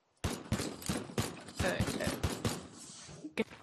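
Shotgun and pistol gunfire in a video game: a rapid run of sharp, punchy shots, many in quick succession, then a short tail and a final burst after a brief gap.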